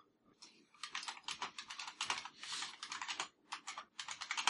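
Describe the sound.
Typing on a computer keyboard: a rapid, steady run of many crisp key clicks in dense bursts with short pauses, with no voices.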